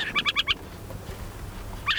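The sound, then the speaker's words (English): An adult owl perched on a fence post above its den in southern Idaho gives four quick, rasping chattering notes in a row, then falls silent before one more note at the end. “An adult owl has been watching us from a fence post, probably the whole time. It's a call a bit less fearsome above ground.”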